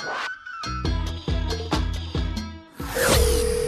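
Telephone ringing as a loud electronic ringtone: a string of evenly pulsed, bright tonal notes repeats in a steady rhythm. A swelling, brighter wash of sound takes over at the end.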